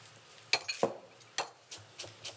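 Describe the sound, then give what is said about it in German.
A knife chops fresh coriander on a cutting board, giving several quiet, crisp taps in an uneven rhythm. “Dann habe ich jetzt hier erstmal den ersten Schwung drin. Schneide ich schon mal ein bisschen Koriander.”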